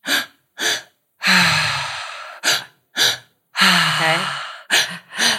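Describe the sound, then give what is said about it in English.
Breathing exercise done entirely through the mouth: two quick, sharp inhalations followed by one long, loud, rushing exhale, the cycle repeated twice and then started again, with no talk. “So what you want to do is all through the mouth, you breathe into the belly, into the heart, and then out, all in and out through the mouth. Okay. So it sounds like this.”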